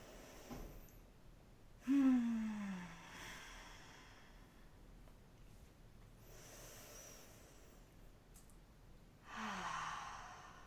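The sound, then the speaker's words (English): Slow deep breaths, each a soft drawn-out inhale and exhale like a sigh, come a few times with quiet pauses between them and no talking. “Take an inhale through the nose and an exhale out the mouth or out the nose. A couple more like that.”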